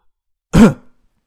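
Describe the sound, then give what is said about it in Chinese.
A single light cough, a short rough throat-clearing burst that lasts under half a second, alone in silence. “王文军轻轻咳了一声”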